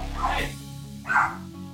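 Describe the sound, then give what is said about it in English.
A pet dog barking back after being scolded: a couple of short, sharp barks over a steady low hum, fairly faint. “My dog always has to get the last bark in.”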